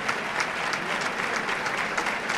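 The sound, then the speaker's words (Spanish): Ovation for a band, its soloist and its director from a standing crowd at a bullfight, a dense, even wash of clapping that holds steady, fairly faint and with no break. “ovación a la banda que saluda el solista y el director.”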